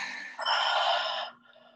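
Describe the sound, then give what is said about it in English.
A deep breath is drawn in through the nose and then sighed out during a guided relaxation exercise. A soft hissing inhale gives way to a louder, breathy exhale of about a second, which then fades. “take a big deep breath in through your nose. And sigh that out.”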